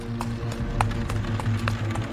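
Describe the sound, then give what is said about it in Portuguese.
Hoofbeats of horses pulling a cart toward a town square on a dusty road: a steady clip-clop of hard, sharp taps over a low, continuous rumble, with no voices. “Ao se aproximar da praça, a carroça reduziu a velocidade. Os cavalos relincharam.”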